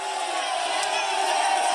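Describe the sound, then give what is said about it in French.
Fiorentina supporters cheer and roar in welcome as Franck Ribéry arrives at Florence airport. The crowd noise is dense, loud and continuous, a steady wall of shouting voices with no break. “Écoutez l'accueil que les supporters de Florence en Italie ont réservé à Franck Ribéry.”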